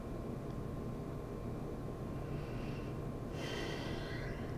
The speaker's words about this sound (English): When I just said that last statement, I had to take a huge deep breath in order to integrate that light.